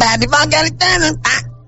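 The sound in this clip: A human voice imitates a duck quacking in a run of a few loud, nasal, buzzy honks that end with a shorter call trailing off, all over a steady low hum.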